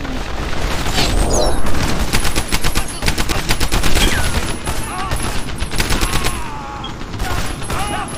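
Rapid automatic gunfire in a World War II shooter video game, with dense bursts of machine-gun shots rattling almost nonstop and loudly through the whole stretch, with a few heavier booms mixed in.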